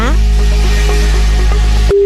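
A telephone ringing tone on a phone-in call to a prize winner: a loud, steady electronic tone held for about two seconds, then cut off sharply by a brief higher tone.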